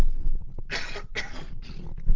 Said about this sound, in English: And so I'm going to have to cough, a scratchy voice on the second audio.